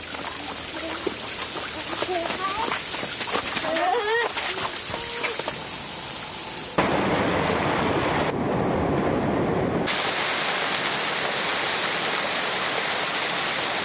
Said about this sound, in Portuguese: De onde vem esse som? Uma cachoeira.